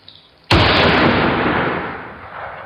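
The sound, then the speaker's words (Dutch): A single loud gunshot near houses bursts out of near-silence, a sharp blast whose heavy, rumbling tail rings on and slowly decays over the following two seconds. “Er wordt geschoten.”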